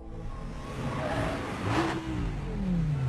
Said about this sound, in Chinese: 两个人开车来到廖永嘉所说的地点